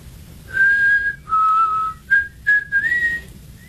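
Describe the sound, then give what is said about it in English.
Whistling by a person: a clear, pure melodic line of several sustained notes with small pitch slides, the last rising higher, heard alone over a faint low rumble. “I taught you how to whistle.”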